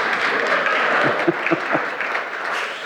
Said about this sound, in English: And then Mike taught on Thursday night, and he should be applauded too, by the way.